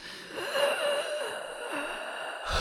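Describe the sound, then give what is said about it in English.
A deep breath drawn in during a guided relaxation exercise: a steady, breathy rush of air lasting about two and a half seconds, with a faint wheezy tone through it and a brief burst of noise at the very end. “Now inhale.”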